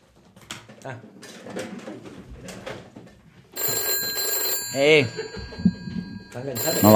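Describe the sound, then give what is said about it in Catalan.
A telephone rings as a call is placed, with a sustained electronic ringing tone that breaks into two ringing bursts, heard after a stretch of voices and other sounds. “I truca al seu amic Fabrice.”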